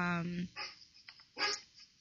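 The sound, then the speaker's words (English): A pet dog barks excitedly, set off by buzzer sounds from a televised news debate. A few sharp barks break out among talk, after a sustained whining tone at the start. “oh, hi, doggy. Yeah, my mom's watching the news, and there's this debate thing going on, and every time they hit the buzzer, the dog goes nuts.”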